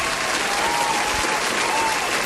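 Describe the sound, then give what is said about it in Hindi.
Audience applause breaks out for correct answers on a Hindi quiz show, a dense, steady clatter of many hands clapping at even loudness throughout. “जिन्होंने भी ये सही जवाब दिया है भाई, जोरदार तालियां आप सभी के लिए”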